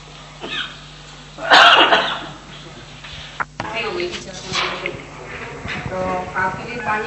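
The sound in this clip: A short burst of coughing breaks out of a low background hum, with a single sharp click shortly after, then quieter voices talking.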